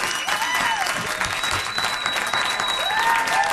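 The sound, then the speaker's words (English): A studio audience gives a warm ovation to a veteran entertainer arriving as a guest: loud, sustained clapping with a few whistles rising above it, keeping an even, full level throughout. “A very nice ovation from our audience.”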